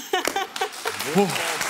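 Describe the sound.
Audience applause for a contestant on a Hessen quiz show, a rising patter of clapping that runs beneath a person speaking.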